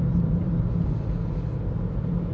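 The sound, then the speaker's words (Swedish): Steady low engine and road rumble fills the cabin of a moving car as it drives through the summer countryside of Österlen, an even drone with no distinct events. “Då har jag en stund här i min älskade bil på väg genom sommarlandskapet på Österlen.”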